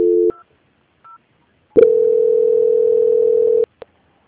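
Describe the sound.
Telephone tones sound as a call is transferred: a short tone, a brief faint beep, then a long steady tone of about two seconds, ending with a single click.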